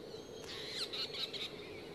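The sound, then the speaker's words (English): Storm petrels calling: a few short, high chirping calls rise faintly over a steady low background hum, with no voices. “The birds, the storm petrels. They're following us.”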